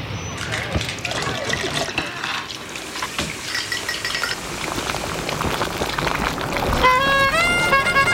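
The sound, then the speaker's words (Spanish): Dishes and cutlery clink steadily in a busy kitchen in Puebla, with scattered sharp clinks and clatter over a continuous bed of kitchen activity that grows slightly louder toward the end. “Suena a cocina.”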